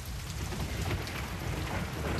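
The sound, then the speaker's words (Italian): Heavy summer rain pours onto pavement in a dense, unbroken hiss that stays fairly faint and even throughout. “Con fragor triste scrosciava la pioggia di estate sul selciato”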